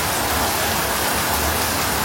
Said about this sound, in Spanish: Está lloviendo, está lloviendo.